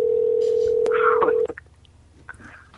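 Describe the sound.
Telephone dial tone: a steady hum for about a second and a half, broken by a brighter key tone, then abruptly cut off and followed by a few short, faint dialing beeps.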